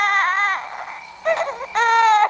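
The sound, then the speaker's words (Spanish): A hungry baby, a newborn nephew, cries in loud, wailing bursts separated by brief catches of breath. “Si había algo que Tita no resistía, era ver a alguien llorando de hambre.”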